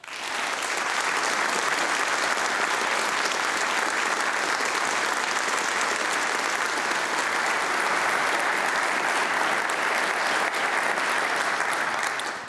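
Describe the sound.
An audience gives sustained applause to welcome a physicist to the stage at a science talk, a thick, even wash of clapping that holds steady for about twelve seconds before tapering off.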